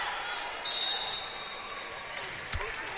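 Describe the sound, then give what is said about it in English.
A volleyball is bounced on the court before a serve: one faint thud comes near the end, after a brief high squeak. A low murmur of crowd noise runs beneath it. “Cluxton to serve again. Bounces it a couple times. Toss it up.”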